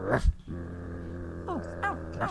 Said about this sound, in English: Dogs? Why did it have to be dogs?